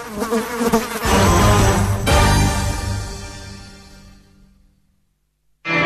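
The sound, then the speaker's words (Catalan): A fly buzzing close by, a loud, droning insect whine with rich overtones that wavers, grows quieter and fades to silence, then suddenly starts up again at the end. “Puta mosca aquí. ¿Cómo? Puta mosca aquí.”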